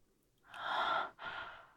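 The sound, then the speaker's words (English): Soft breathing close to the ear: a longer, airy breath swells and fades, and a second breath follows right after it. “Don't get distracted by my breath in your ear.”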